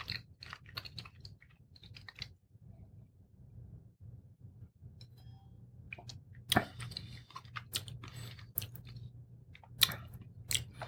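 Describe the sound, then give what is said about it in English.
Someone chews cheddar parmesan cheese, with soft crunching bites and moist mastication arriving in irregular bursts. A few sharper crunches stand out over a faint, steady low hum, and no one speaks. “But we're going to give it a try. This is a cheddar parmesan, I believe, from Aldi. Tastes like it anyway.”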